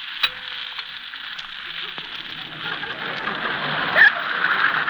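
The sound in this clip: Eggs fry sunny side up in a pan with a soft, hissing sizzle that grows a little louder in the second half, broken by a sharp crackle near the end.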